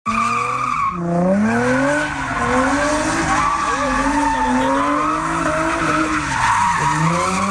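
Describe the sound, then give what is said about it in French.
Cars skid and squeal their tires at an illegal street-racing gathering of about 300 young people in the industrial district of Trois-Rivières. A loud, continuous, wavering tire squeal with shifting pitch blends with engine roar and never pauses. “Ce que vous entendez, c'est ça a été pris la fin de semaine dernière, samedi dernier. Les policiers de Trois-Rivières ont empêché un rassemblement de 300 jeunes qui souhaitaient faire des manœuvres ou des courses automobiles dans le quartier industriel.”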